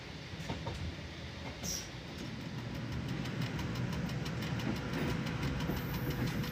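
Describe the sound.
Train running on a railway line past vineyards and fruit plantations, a low, steady rumble that grows slightly louder, with a regular rhythmic clatter in the second half.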